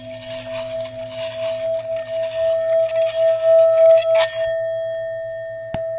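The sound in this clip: Three metal singing bowls made of a seven-metal alloy ring together, several steady, sustained pitched tones layered into one harmonious hum, with a single sharp tap near the end.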